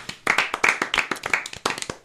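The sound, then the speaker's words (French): Applause for a quiz show contestant who has just been eliminated: many crisp, irregular hand claps in quick succession, fairly loud and steady throughout, with no voices. “On peut applaudir Nelson, bravo.”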